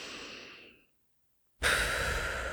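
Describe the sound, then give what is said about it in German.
Slow exhales through loosely closed lips make a soft, breathy puffing hiss. One rush fades out into silence, then a second, louder breath starts abruptly and holds steady to the end. “Du machst so ein kleines Puffgeräusch, so ein Pfff beim Ausatmen.”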